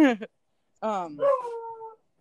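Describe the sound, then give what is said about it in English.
A dog in a garage gives a short high yelp, then after a brief pause a drawn-out, wavering whine that trails off into quiet. “we hear the dogs barking in the background.”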